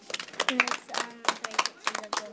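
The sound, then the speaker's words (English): A group claps after a short talk about donkeys: many quick, uneven claps in bursts, mixed with voices talking over them. “Ah, so donkeys don't like rain. How weird is that? Give her a big clap.”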